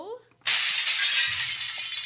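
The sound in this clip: A voice imitates glass shattering when a window is struck, producing a sudden harsh, hissing burst that holds for about one and a half seconds. A brief spoken sound comes just before it.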